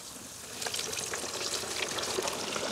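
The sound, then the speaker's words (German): Sizzling of a breaded, seasoned Franconian Aischgründer carp as it goes into hot oil for deep-frying. A broad, steady hiss rises after about half a second and holds evenly, with no talk. “Ich werde jetzt live für euch diesen leckeren fränkischen Eischgründer Karpfen frittieren. So, der muss gut paniert werden. Der wurde vorher schon gewürzt. Genau, jetzt kommt er hier rein.”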